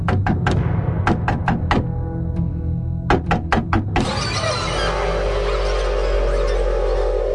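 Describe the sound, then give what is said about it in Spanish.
Insistent knocking on an apartment door: many sharp, rapid knocks in uneven bursts, followed by a steady, sustained drone. “Ella tocó el timbre y, como nadie abrió, golpeó la puerta con insistencia.”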